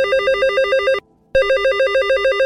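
A telephone rings with a loud, rapid electronic trill in two bursts, broken by a brief silent gap. No voices are present.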